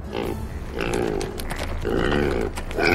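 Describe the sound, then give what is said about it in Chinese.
A golden-haired wild boar and her piglets grunt while digging soil with their tusks, giving several short, throaty bursts of pig grunts in an irregular rhythm, with a louder grunt at the end. “黄金毛的山猪带着小猪们来到了郊外，教会了他们用大牙挖土掘地之后。”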